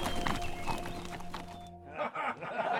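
Two horses ridden slowly out of town at a walk, their hooves giving a steady, unhurried clip-clop that stays fairly loud and even throughout.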